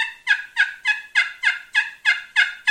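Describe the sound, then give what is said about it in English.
A turkey friction call, its sound holes covered by a hand to muffle it, gives a rapid, evenly spaced run of many short, raspy yelps at a steady rhythm and even loudness, with no voices. “one of the big things about using a friction call is you've got holes in the bottom. And you can change that sound chamber by the way that you hold your hand.”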